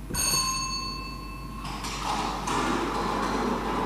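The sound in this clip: A Thai lottery draw machine releases a ball: a sustained bell-like ringing tone cuts off, followed by a steady mechanical rattle and whir.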